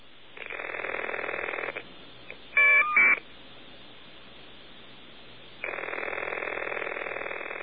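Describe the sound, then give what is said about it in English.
Ringing and caller ID data tones on an old telephone line: a long electronic ring burst, then a brief, higher warbling data burst in two short chunks, then a second ring burst after a pause of steady low line hum. “Okay, that was the number being sent, and that is the sound of the ring. That is what your phone actually sounds like.”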